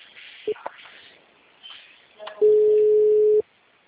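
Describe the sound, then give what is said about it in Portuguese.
Ringback tone of a telephone on an outgoing call: one steady, flat beep lasting about a second, sounding alone after a short faint blip and a low murmur of background noise. “Eu tô ligando aqui, tô chamando.”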